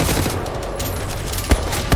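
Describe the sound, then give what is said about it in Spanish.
Gunfire in a video game rattles in a dense, steady burst, with two sharper, louder shots cracking near the end. “Están disparando todas las mismas.”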